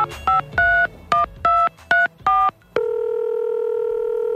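Telephone dialing in a phone booth: seven short, clipped keypad tones in quick succession, followed by a steady, unbroken electronic tone that runs to the end.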